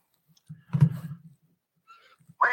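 A single computer mouse click starts a trailer, a brief, crisp tick set among a short, low vocal murmur, with otherwise quiet surroundings.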